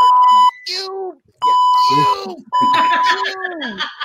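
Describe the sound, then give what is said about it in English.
Electronic beeping: three steady, high, flat tones, each lasting about half a second or more, alternating with people talking. “Are you beeping yourself? I need a beeper like that.”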